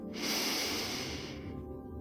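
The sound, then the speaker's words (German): A long, deep breath taken during a guided relaxation exercise: a soft, steady rush of airflow lasting over a second, with no talk. “Atmen Sie tief ein”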